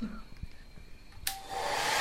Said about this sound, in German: Nach dem Föhnen folgt das Einpacken.